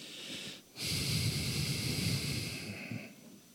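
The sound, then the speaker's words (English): A long breath drawn in through the nose, a steady airy hiss that lasts about two and a half seconds on its own before stopping abruptly. “That breath.”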